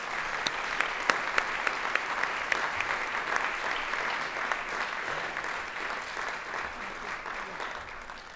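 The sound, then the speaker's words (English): Steady applause from an audience welcoming a speaker to the podium at a church gathering: many hands clapping in a dense, even wash that holds throughout and eases slightly at the end. “And let's give her a welcome that is worthy.”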